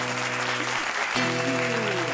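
An audience claps in a dense, even burst of applause. Sustained musical tones play beneath it, with a brief dip about halfway through.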